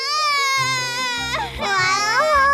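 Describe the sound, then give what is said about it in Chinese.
A baby cries in a loud, continuous, high-pitched wail whose pitch wavers and bends throughout, with no break in the crying. “为什么哭啊？到底是为什么呀？要怎样才能止住呢？”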